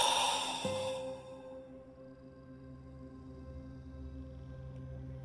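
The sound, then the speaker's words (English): A deep, breathy exhale during a guided breathing and meditation exercise. It opens as a soft, airy rush and fades within about a second, leaving a faint, steady low hum. “Big breath in. Hold. And exhale.”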